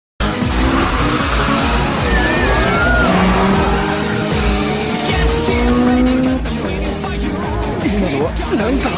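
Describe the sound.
Car drifting in an anime film scene: a loud, steady racing-engine drone with shifting pitch fills the whole stretch, and a few high tyre screeches cut in over it.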